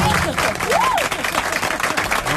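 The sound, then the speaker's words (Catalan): Audience applause rings out during a theatre-themed conversation, a dense patter of clapping with voices calling out over it. “Un aplaudiment. Bravo, bravo.”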